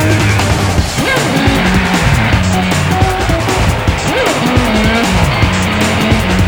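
A hot rod car roars with squealing tires, its engine loud and continuous as shrill tire squeals rise and fall throughout.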